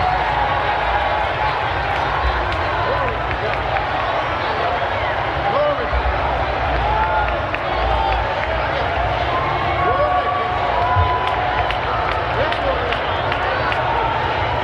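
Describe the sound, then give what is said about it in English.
A church audience worshipping and cheering: a dense, steady wash of many voices with scattered shouts and possible clapping that runs the whole length without a break. “This is the sound of a church. This is what church sounds like.”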